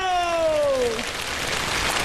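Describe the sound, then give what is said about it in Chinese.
Audience applause at a live comedic performance fills the room after a falling electronic tone fades out, a dense, even wash of clapping held at a steady level. “大家来点掌声和尖叫。”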